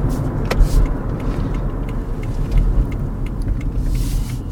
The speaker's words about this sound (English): Well, right now I'm not walking. Driving, actually. It's more of a night drive